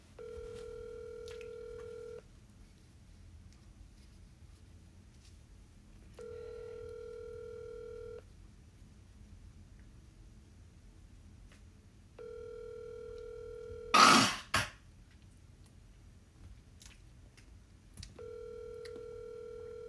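Electronic ringback tone heard while placing a phone call: a steady two-tone hum comes in four evenly spaced bursts of about two seconds each, separated by longer silences, with a brief loud crackle just after the third burst.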